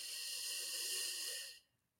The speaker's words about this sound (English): putting your hands on your lap, I want you to take a nice deep breath in